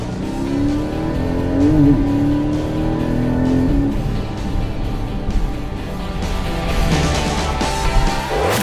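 A car engine is revved hard as the car is driven hard on a road test, its note climbing in repeated surges and dropping between them, loud and continuous with no talking.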